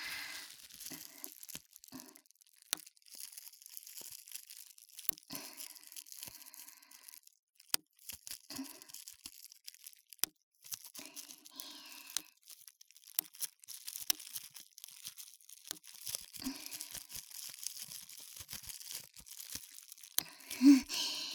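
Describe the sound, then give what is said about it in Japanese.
Bubble wrap packing material being popped: many small, irregular sharp pops and crinkles scattered across a quiet background, faint overall with a few louder snaps. “いわゆるプチプチ。梱包材っていうの？これで時間潰せちゃうわよね。”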